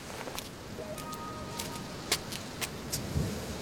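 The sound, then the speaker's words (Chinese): Heavy rain pours in a thunderstorm, driven sideways by the wind. A steady, dense hiss runs throughout, broken by a few sharper spatters and knocks. “这雨都打横着就出来了，练的都是扫堂腿。”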